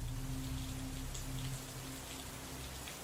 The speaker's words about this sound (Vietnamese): Cơn mưa trắng xóa nhốt trọn cả ngôi làng. Mưa trắng trời, mưa vũ vã, mưa giằng xé từng cơn.